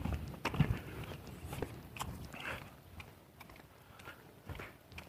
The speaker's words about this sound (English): I'm working up a sweat too, because I'm hiking right along, trying to get back to the barn before 9 o'clock